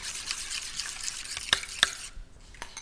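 Beaten egg is mixed with chopped ume plum and grated cheese in a bowl, making faint, soft stirring and sloshing with two sharp clicks of the utensil against the bowl.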